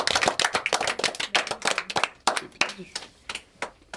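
Applause from a quiz audience for the winner: a handful of people clapping in quick, uneven bursts of sharp claps that thin out toward the end.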